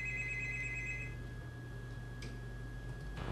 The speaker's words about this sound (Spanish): Ahí están una llamada al aire, así que vamos a sacar esa llamada.